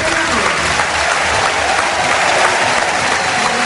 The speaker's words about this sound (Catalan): Tati Castellanos, que mireu quina ovació rep